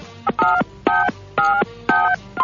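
Telephone keypad touch-tones sound as a number is dialed during a prank phone call: a loud run of about five short dual-tone beeps in an even rhythm, with no voices.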